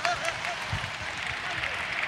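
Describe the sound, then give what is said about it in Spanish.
Applause from a crowd at a Deportivo de La Coruña farewell, a steady, dense wash of clapping mixed with voices and no clear gaps. “Aplauso de peli para Villares.”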